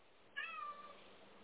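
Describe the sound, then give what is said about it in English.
A cat meows once, a short, faint call that dips slightly in pitch before fading into quiet. “I think your kitty has all the last words for us today.”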